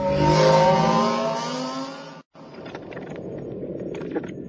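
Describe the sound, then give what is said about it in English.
A motorbike engine revs hard as the throttle is twisted to pull away, giving a loud, buzzing harmonic whine that cuts off abruptly into a steady rushing roar. “twisting the throttle and scooting forward on the seat”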